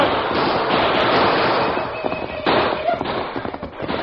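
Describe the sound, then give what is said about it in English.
Gunshots in a radio drama of a western frontier fight, heard as a dense, continuous crackle of loud blasts and rumble with a thin, muffled quality and no pauses between shots. “Use your guns, Tonto.”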